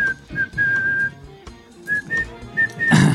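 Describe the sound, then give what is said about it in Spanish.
A person whistles a tune of several clear, high held notes broken by short pauses, then a loud noisy burst cuts in at the very end. “venimos como Omar, silbando desde el fondo del callejón.”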